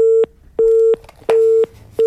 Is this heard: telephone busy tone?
yes